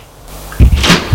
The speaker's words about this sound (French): Une porte s'ouvre.